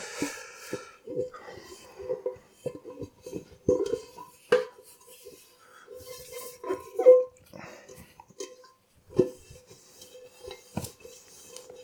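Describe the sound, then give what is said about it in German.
A large pot is dried by hand with a towel, giving scattered metallic clinks, knocks and clatters of kitchenware in irregular bursts with quiet gaps between them. “So, jetzt habe ich hier den großen Topf zum Abtrocknen.”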